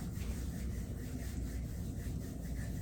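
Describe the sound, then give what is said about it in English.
Hands being rubbed together at heart center during a breathing exercise make a faint, continuous dry friction hiss that stays even throughout, with no voices. “Go ahead and bring your hands to heart center and rub your hands together.”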